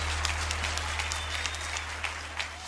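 Applause for a performer: a crowd clapping steadily with scattered sharper claps standing out, over a constant low hum.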